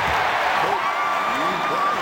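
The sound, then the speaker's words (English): A crowd cheers at a basketball game after a Kobe Bryant dunk. A dense, continuous roar of voices carries shrill whoops and whistles that rise and fall over two seconds. “As everyone around her jumps up and cheers, Jill gives an unimpressed look.”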